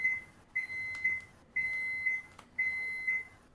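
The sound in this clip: An oven beeps electronically, sounding a high, steady tone in a regular repeating pattern of short and long beeps, with no voices.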